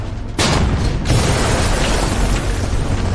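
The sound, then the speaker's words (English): Shells from a German self-propelled gun explode against houses in Hoven: two heavy booms, one near the start and another about a second later, each followed by a loud, sustained rumble that carries to the end. “The armor begins to lob shells at the houses in Hoven.”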